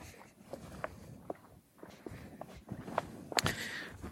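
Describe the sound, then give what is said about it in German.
Footsteps walk down stairs from old mill foundations, a faint, uneven series of soft steps and scuffs that ends with a few louder, sharper footfalls. “Gehen die Treppen wieder nach unten.”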